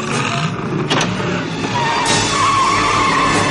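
A DeLorean car pulling away across a parking lot with skidding tyres: a steady engine and road roar, then a sustained, high tyre squeal through the second half, loud and with no talk.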